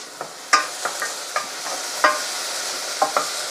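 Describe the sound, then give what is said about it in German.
Spices toasting in a hot pan, stirred as they cook: a steady frying sizzle and hiss runs throughout, broken by a series of sharp scraping clicks from the stirring. “diese Gewürze geben wir dann da gleich auch noch mit rein und rösten die auch ein kleines bisschen mit an”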